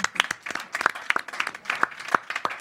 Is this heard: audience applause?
yes